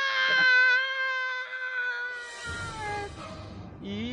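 A person imitates a creature crying after an arrow pierces its back: a long, quavering, high-pitched, cat-like wail that breaks into ragged, noisier sobbing cries.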